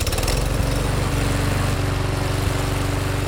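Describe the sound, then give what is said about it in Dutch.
A lawn mower engine mows grass with a loud, steady, low buzzing drone that stays even and unbroken throughout. “Nou, gaat u maar weer gras maaien.”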